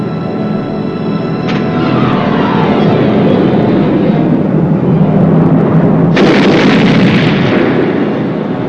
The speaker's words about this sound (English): Did you let that bomb go?